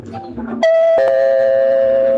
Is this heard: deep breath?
no